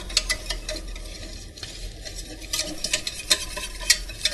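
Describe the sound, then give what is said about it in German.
Dough is stirred in a hot pot to keep it from burning, giving irregular scraping and soft sticky churning sounds with scattered sharp clicks against the pot, steady and alone. “Vorsichtig auch immer rühren, dass das nicht anbrennt.”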